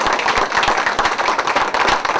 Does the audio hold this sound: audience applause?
yes